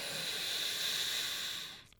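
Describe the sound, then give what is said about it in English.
A deep inhale during a 4-7-8 breathing exercise meant to ease sleep, heard as a steady, airy hiss that holds loudly for about two seconds and then fades. “Inhale 4 seconds, keep your breath for 7 seconds, and exhale for 8 seconds, right? So inhale.”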